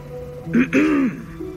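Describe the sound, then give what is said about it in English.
A throat clears once, a short voiced rasp in two quick pushes that rises above a steady low hum and then fades. “A throat cleared.”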